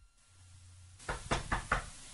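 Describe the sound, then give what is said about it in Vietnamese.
Four sharp knocks on a door in a quick, even rhythm, clear and fairly loud after a stretch of near silence. “Có tiếng gõ cốc cốc, Nhã Tịnh chưa kịp lên tiếng thì cửa đã mở.”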